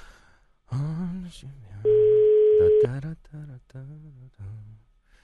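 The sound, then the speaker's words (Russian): Telephone ringback tone as an outgoing call goes through: one steady, loud, low-pitched tone lasting about a second. A voice talks quietly before and after it. “Тихо-тихо-тихо-тихо-тихо, пошел звонок, звонок пошел.”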